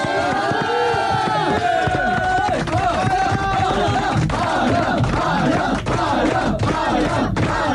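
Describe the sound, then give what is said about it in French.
A crowd gives a standing ovation for a performer, with loud, continuous cheering and shouting that keeps a constant level throughout. “Debout pour les saluer, peut-être pour la standing ovation quand même pour Alain de Brest.”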